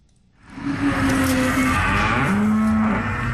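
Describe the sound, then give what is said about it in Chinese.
A yellow-and-white calf of a gene-edited beef cattle breed moos in a long, low, drawn-out call with a brief break midway. It is loud and clear, with no talk over it. “走进河北天河肉牛种业有限公司的犊牛舍，记者远远就看到一头黄白相间的牛犊正在低头咀嚼草料”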